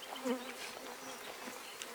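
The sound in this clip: Honey bees from a beekeeper's hives buzz in a faint, steady, low drone that stays even throughout, with a slight swell near the start.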